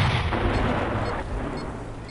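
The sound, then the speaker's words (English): Artillery fire in a video game, a loud, dense, continuous roar of booming blasts with heavy low rumble and no talk. “Let's see if we can shoot the artillery from here.”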